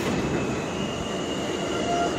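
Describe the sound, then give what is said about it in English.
C line subway train arriving at a station: a steady, loud rumble of wheels on rails with a thin high squeal running throughout. “All right, we got an incoming C train. This is my train.”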